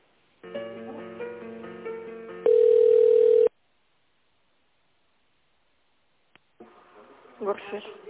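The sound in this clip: Telephone line sounds as an office call is transferred: a short electronic hold melody, then one loud steady tone lasting about a second, a stretch of silence, and faint crackly line noise with a voice at the end.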